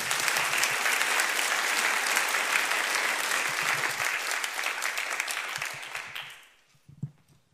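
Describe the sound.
An audience applauds to welcome a woman coming up to give her testimony. Steady, full clapping holds for about six seconds, then thins out and fades to near silence, with a lone faint sound at the very end.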